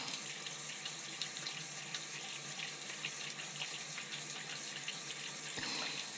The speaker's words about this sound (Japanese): シャワーの温度はいかがでしょうか。